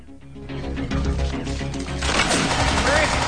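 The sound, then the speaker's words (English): Gunfire in a firefight, from a single shooter on a rooftop tower, comes as dense, rapid crackling bursts over a thick, noisy backdrop that grows louder toward the end, with voices mixed in. “Under fire from the rooftop, they take cover and return fire.”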